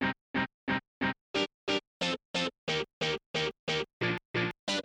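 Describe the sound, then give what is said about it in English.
A ska guitar track plays the offbeat rhythm as a steady run of short, chopped chord strums. Each is cut off sharply, with even, clipped spacing and no other instruments. “Then I have two different guitar tracks, one that's doing the offbeat ska rhythm, and that plays during both the verses and the chorus, and that sounds like this.”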